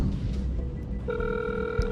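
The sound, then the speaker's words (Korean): A telephone ringback tone of an outgoing call, a steady, pure electronic tone that begins about halfway through, over low background noise. “찾았어요? 전화번호. 나왔다. 오. 전화해봐.”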